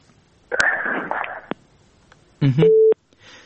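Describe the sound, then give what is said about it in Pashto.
Telephone busy tone after a dropped call: one steady mid-pitched tone burst, loud and alone near the end, following a stretch of rough, noisy sound. “د وردګ صاحب اړیکه شلېدلې ده.”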